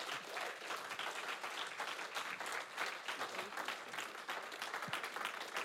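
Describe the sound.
An audience at an evening church preaching service applauds to welcome a speaker. The faint, dense clapping swells and dips slightly across nearly six seconds.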